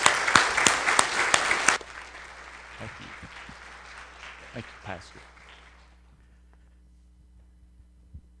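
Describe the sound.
A church audience applauds a visiting preacher coming up to open the Word: loud, crisp clapping for under two seconds, then an abrupt drop to sparse, faint claps that die away over a low steady hum.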